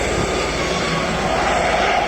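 Helicopter landing at a funeral gives a loud, steady roar of engine and rotor noise that holds an even level throughout, with no clear gaps or breaks.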